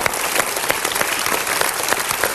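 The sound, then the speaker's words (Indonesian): Audience applause from a studio audience at a televised seminar, steady dense clapping throughout, loud and even, with no speech over it. “Tepuk tangan dahulu untuk pilihan Anda.”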